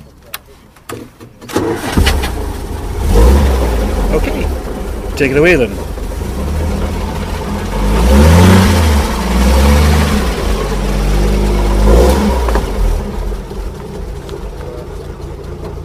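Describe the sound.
A classic car with limited mileage, used only for special events, cranks and fires up, then settles into a low, steady idle with a couple of rises in revs. A person speaks briefly at the start.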